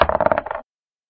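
A single die rolls in a dice video game, a quick clattering run of many small taps that lasts just over half a second and then stops dead into silence.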